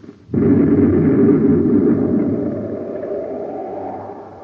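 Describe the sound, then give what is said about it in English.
A weapons blast fired at people stranded outside a spacecraft airlock: one sudden loud onset, then a deep, broad rumbling roar that lingers and slowly fades. “Someone's firing at us. That one came from the other direction.”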